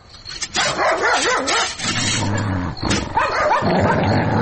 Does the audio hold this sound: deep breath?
no